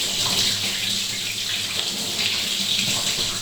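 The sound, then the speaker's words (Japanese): Hot water is poured over someone's body during a bath, a loud, steady splashing rush that stays even from start to finish. “全身きれいになりましたね。お湯かけますよ。シャバーッ。”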